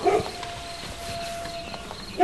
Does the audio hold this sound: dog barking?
yes